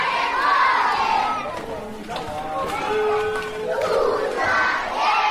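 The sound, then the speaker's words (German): Children shout and call behind a refugee camp wall in Cameroon, forming a continuous, dense crowd of young voices that stays loud and busy throughout. “Die Kinder hinter der Campmauer hört man schon von Weitem.”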